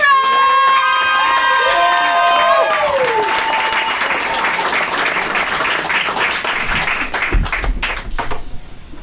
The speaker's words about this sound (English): This man's doing great things. Give him a round of applause.